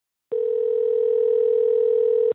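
A telephone line tone sounds as a caller's call connects: one steady, unwavering mid-pitched tone that lasts about two seconds on its own and cuts off cleanly.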